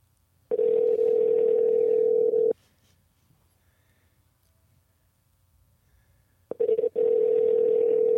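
Outgoing telephone call ringing: a steady, mid-pitched ringback tone sounds for about two seconds, silence follows for about four, then a few quick clicks lead into a second identical tone. No one speaks.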